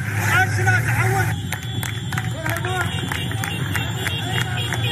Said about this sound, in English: What you're hearing is residents of the city clapping and cheering as fighters drove in pickup trucks around the city in a show of force.